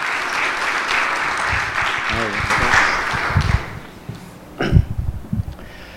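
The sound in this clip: An audience applauds to welcome a young man coming up to share his testimony at a church gathering. The thick clapping runs for about three seconds, then thins and fades as a voice begins speaking.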